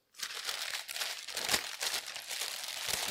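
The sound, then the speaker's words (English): Wrapping paper being crinkled and crumpled, a continuous, fairly faint, bright crackling that swells and eases in irregular bursts, with no voices. “we don't need that wrapping paper anymore. That wrapping paper, that picture of the problem has been set aside by Jesus.”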